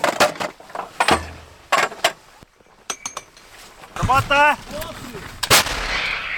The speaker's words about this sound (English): So the soldiers have now been given a target, and they're working as fast as possible to try and fire as many rounds as accurately towards the Russian positions.